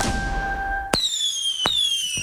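Fireworks explode with two sharp bangs, each followed by high whistling tones that slowly slide down in pitch, over a steady crackling rumble.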